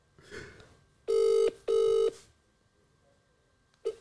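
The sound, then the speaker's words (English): A mobile phone call ringing through gives one double ring of two loud, steady electronic buzzes in quick succession. A brief blip follows after a pause, and there is no talking over it. “Yeah, I'm gonna call you. Yeah, and then decline my call, innit?”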